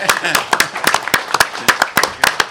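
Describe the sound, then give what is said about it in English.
Applause in a room after a club announces a five-year contract extension for a player: loose, uneven clapping in sharp bursts from a modest group, with voices speaking throughout. “that deserves a round of applause from everybody in this room”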